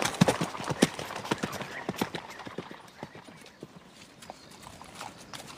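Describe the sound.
Hooves of ridden horses clip-clopping: many quick, crisp hoof beats in a steady rhythm, loudest at first and gradually growing quieter.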